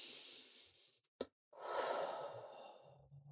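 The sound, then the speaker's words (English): A deep breath is taken during a calming exercise, with a pause and a hand placed over the heart. A soft, airy draw of breath is followed by a short silence, then a longer, fuller breath that trails off like a gentle sigh. “It's just stop, take a big deep breath and put your hand over your heart.”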